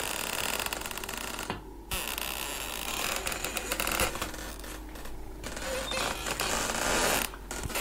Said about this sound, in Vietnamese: Trong mưa gió ẩm ĩ như thế mà cái tiếng bản lề kêu lên ken két xoáy vào tai nó.